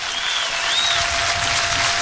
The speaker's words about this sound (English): Crowd to their feet to help Jalen here in the ninth.